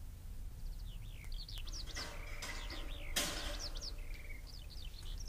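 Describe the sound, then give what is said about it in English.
A small bird chirps faintly: a run of quick, high, repeated chirps in short bursts over a steady background hiss. “Fly away, birdie. Fly away.”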